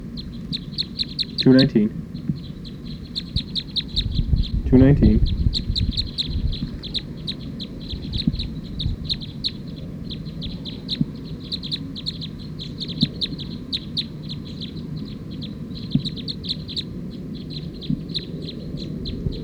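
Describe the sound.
Many rapid, high-pitched bird chirps repeat in a steady rhythm from start to end, with two brief louder bursts early on and a low rumble underneath.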